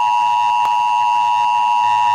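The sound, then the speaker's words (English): An emergency broadcast alert tone: a loud, continuous, piercing electronic tone with a steady pitch, held without a break from start to finish, with a faint click near the start. “This is an emergency action notification.”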